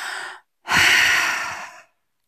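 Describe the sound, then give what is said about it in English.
A deep breath taken alone: a short, soft intake, a brief pause, then a longer, louder, airy breath that holds steady for over a second before fading. “Relax a little bit more. Take a deep breath.”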